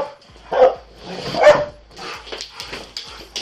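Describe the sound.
A dog barks several times in sharp bursts of varying loudness, with two stronger barks early and softer ones after, and no clear talk over it.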